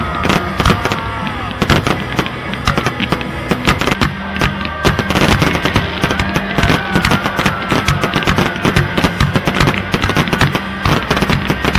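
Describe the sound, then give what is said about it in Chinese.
A farewell fireworks display in Australia closing a day of stunt driving, heard as loud, continuous crackling with dense bursts and pops throughout and no letup. “压轴的还是澳洲豪顿车队的特技表演和道别焰火”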